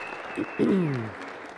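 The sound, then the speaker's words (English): Brief audience applause welcoming a woman to the stage at a church service, a short soft patter with a voice sounding over it. “Can you give her a little hand here as she comes up?”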